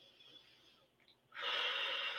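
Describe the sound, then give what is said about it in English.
A deep breath, in and out: a faint, airy intake drifts for about a second, then a louder, steady hissing breath out follows and continues to the end. “So let's take a deep breath and let it out.”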